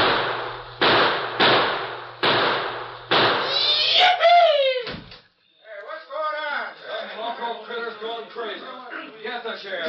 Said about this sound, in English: Guess this gent had too much to drink. He's trying to shoot up the town.